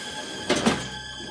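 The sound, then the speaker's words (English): Elevator doors sliding closed in an office building, a soft, brief swish ending in two quick dull thuds, faint and low against a quiet hum. “He steps into an open elevator and presses a button marked 4. The doors close.”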